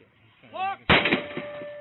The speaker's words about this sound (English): A police officer misread the situation and shot the man who stepped onto the porch. And that one single bullet killed him.